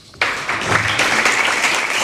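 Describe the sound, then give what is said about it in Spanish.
Applause from fellow party members at the close of a political speech, bursting in abruptly after a brief near-silence and continuing as loud, dense, steady clapping to the end. “Bueno, pues termina Ione Belarra, le aplauden los compañeros y compañeras de Podemos”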